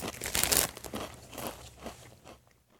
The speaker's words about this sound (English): let me give these a whirl. Again, Lay's game day chili flavored. That's it. Just stops there. I guess it's potato chips.